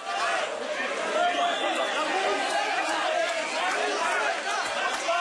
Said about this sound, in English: Supporters clamored and cheered as presidential favorite Abdel Fattah al-Sisi cast his vote at a polling station near his home in a Cairo suburb.